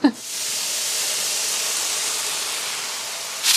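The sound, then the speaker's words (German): Onions fry in a pan for goulash, giving a steady, fairly loud sizzling hiss throughout, with brief louder bursts at the very start and end. “Die Zwiebeln braten wir jetzt an, bis sie so leicht glasig sind und geben dann das Fleisch dazu.”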